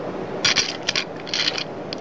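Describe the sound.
Paper rips as a child tears a small paper figure apart: several short, crisp tearing bursts in quick succession, fairly quiet over a low background hiss.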